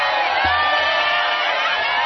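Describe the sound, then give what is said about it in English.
Crowds cheer in the streets of Bangkok as former Prime Minister Thaksin Shinawatra is released from prison on parole, a loud, unbroken din of many overlapping voices with whoops and shouts. “crowds filled the streets of Bangkok to catch a glimpse of Thaksin Shinawat being released from prison on parole.”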